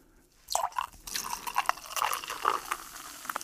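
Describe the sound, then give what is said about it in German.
Sparkling wine poured into a hot pan to deglaze it, bringing an abrupt burst of crackling, bubbling liquid noise that continues unevenly with many small pops and splashes. “Und jetzt muss ich es, ich wollte schon sagen ablöschen, auffüllen. Lösch es mal ab mit Sekt.”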